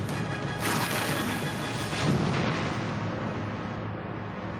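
A massive battle fleet explodes in a loud, sustained roar that swells and surges twice before settling into a continuous rumbling wash.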